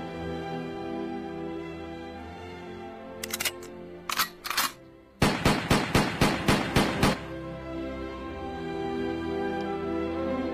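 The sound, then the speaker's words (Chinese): A soldier empties a rifle into the sky as a military salute for fallen comrades. A few scattered sharp cracks give way to a quick, evenly spaced run of shots, all fairly faint over a steady low background. “小战士把枪膛里的子弹全部泼向了天空。”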